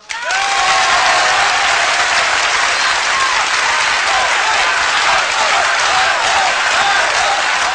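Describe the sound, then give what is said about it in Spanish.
Loud applause from an audience after a song breaks out almost at once and stays dense and steady throughout, with some crowd cheering mixed in. “El aplauso podríamos ser nosotros también, ¿eh?”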